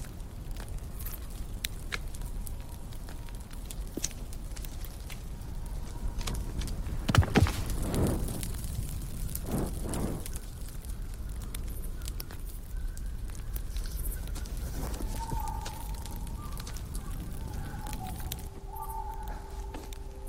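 Wood fire crackling as firewood is added, a steady rushing hiss scattered with sharp pops and crackles, with a few louder knocks and shifts near the middle.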